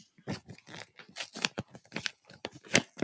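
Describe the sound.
Paper tearing as an envelope holding a vote result is ripped open: quiet, rapid bursts of crisp ripping and crinkling noise, many short pulses in an uneven rhythm.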